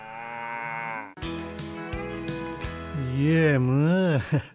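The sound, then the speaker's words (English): An old cow mooing: long, loud, low bellows with strong harmonics, the last one wavering up and down in pitch before breaking off abruptly. “The old cow there, mooing away.”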